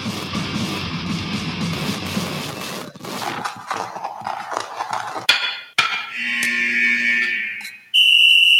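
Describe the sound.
A shrill, sustained whistle marks the end of a period in a hockey game. It cuts in loud and sharp at the close, after a long stretch of noisy, rumbling sound with scattered clatter.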